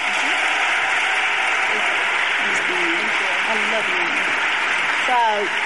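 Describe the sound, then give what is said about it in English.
Audience applause for a guest, a steady, dense wash of clapping that stays even throughout, with a voice speaking over it. “Just give Candace a hand.”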